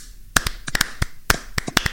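Sparse, irregular hand claps from a few people greeting a guest, crisp and sharp with uneven gaps between them and no voices.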